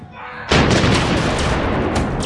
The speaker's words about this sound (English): Along Fortius Secundus, a cannonade split the night